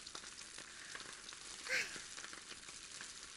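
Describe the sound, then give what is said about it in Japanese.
Meat sears in a hot pan, its surface browning before the heat is lowered: a faint, steady hissing sizzle with a brief, slightly louder crackle near the middle. “表面しっかり焼き固めたら、すぐに弱火にして。”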